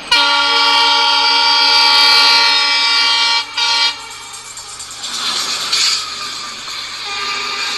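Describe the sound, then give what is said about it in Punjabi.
A train horn blares a long, loud, steady blast for almost four seconds as the train arrives, then gives way to rumbling, hissing rail noise. “मेरी तो रेलगड्डी आ गई है।”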